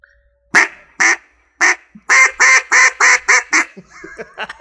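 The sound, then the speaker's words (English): Loud, nasal quacks blown on a duck call by a multi-time Alabama state champion caller: a few spaced calls, then a rapid, evenly pulsed run of quacks that trails off into softer, quicker chuckles. “what you just heard was a multi-time Alabama state champion duck caller”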